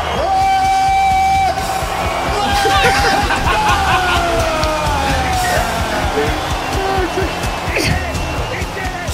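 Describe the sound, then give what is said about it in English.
A man screams excitedly over a roaring crowd as the reigning heavyweight champion is introduced. A long, loud shout opens, followed by wavering yells and whoops over continuous crowd noise. “Look at Joey Diaz. That's Joey screaming.”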